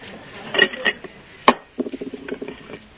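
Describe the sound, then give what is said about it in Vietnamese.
A cup or glass clinks a few times as water is taken for a drink during a teacher's talk, followed by a run of soft, quick sipping sounds, with no talk. “Thầy uống miếng nước.”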